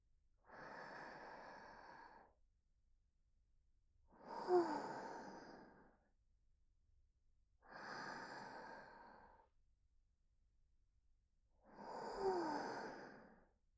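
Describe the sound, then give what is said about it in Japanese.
Four slow, deep breaths, each drawn out over a second or two and separated by pauses, soft and airy with no talking. “お兄さん、ゆっくり深呼吸してみてください。はい。ゆっくり。”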